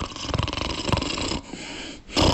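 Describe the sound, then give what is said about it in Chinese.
A storyteller imitates snoring with rough, raspy, rattling breaths in a few rhythmic pulses, fairly loud, then a brief dip and one more gruff snort at the end. “似睡非睡，还是打呼噜。”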